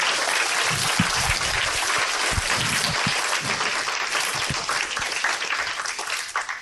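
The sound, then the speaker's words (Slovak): An audience at an evening church service applauds with steady, dense clapping that stays loud and even throughout. “Prosím, zatlieskajte týmto trom, ktorí vám spravili dnes večer kázanie.”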